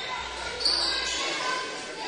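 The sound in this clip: A basketball bouncing on a court during a game, with faint, soft dribbles under a steady wash of background noise and voices.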